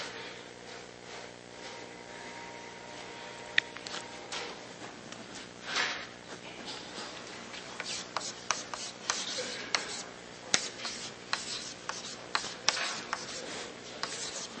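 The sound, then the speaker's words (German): Chalk writing on a blackboard during a lecture makes a long run of faint scratching and rubbing strokes, broken by many sharper taps and clicks, with no talk over it. “Wir sagen, und das wird jetzt wirklich der endgültige Typ sein, und den schreibe ich mal an die Tafel, damit selbst wenn die Folie verschwunden ist, die Information nicht verschwunden ist.”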